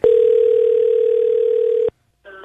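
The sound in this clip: Telephone dial tone heard while placing a call: a loud, steady, unwavering mid-pitched hum lasting nearly two seconds, cut off abruptly, followed by a short silence and the start of another tone.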